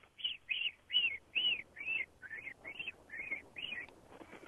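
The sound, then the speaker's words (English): A person whistles an imitation of a robin's mating-season song: nine short, bright, chirp-like notes in a fairly even rhythm, dipping and rising slightly in pitch, fairly faint overall. “robins have mainly two sounds. During the mating season, it's more of a, like a melody, like a little melody that goes up and down”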